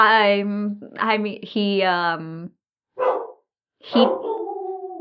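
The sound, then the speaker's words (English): Dogs barking indoors at home, a run of high, whining barks and yelps in a few short bursts separated by brief pauses. “I'm sorry for my dogs. I have no idea what they're barking at.”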